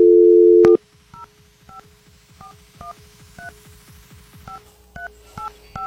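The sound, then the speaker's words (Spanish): A telephone number being dialed: a short, steady dial tone gives way to a series of separate keypad beeps spaced irregularly, each a brief two-tone chirp over a faint, quiet line. “Ok, ya estamos marcando.”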